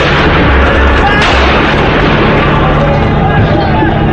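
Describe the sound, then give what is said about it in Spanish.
Police gunfire shooting into a crowd of protesters, heard as a dense, loud and continuous roar of bursts and booms with voices mixed into the din throughout. “Francotiradores y policías comenzaron a abrir fuego entre la multitud y mató a varios manifestantes.”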